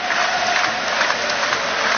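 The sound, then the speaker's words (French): Subdued applause from Auxerre football supporters at a match, a soft, even wash of clapping and crowd noise without distinct peaks. “Les applaudissements des supporters auxerrois, mais ça reste assez timide hein, pour l'instant.”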